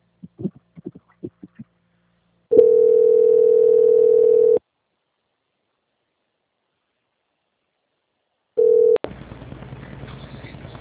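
Telephone line tone during a call transfer on a bank customer call: a steady low tone of about two seconds, then silence, then a brief repeat of the tone followed by continuous line hiss.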